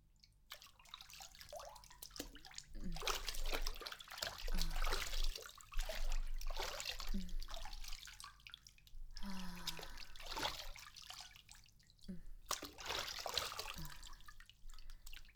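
Hot bath water trickling, faint and uneven, with scattered drips and soft splashes coming and going over about fifteen seconds.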